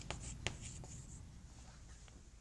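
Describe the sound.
Writing on a board or paper during a lecture, faint scratchy strokes with a few sharper taps early on, continuing quietly with no talk.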